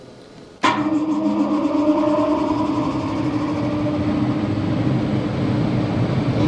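An air compressor of an oxygen system starts up abruptly after near silence, then settles into a loud, steady mechanical drone with sustained humming tones that run unchanged to the end.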